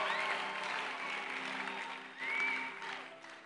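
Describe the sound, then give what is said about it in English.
A church audience applauds as a testimony speaker is welcomed up to the stage, a dense, sustained wash of clapping that carries through the whole stretch and swells briefly near the end. “Put your hands together for him and let's welcome him.”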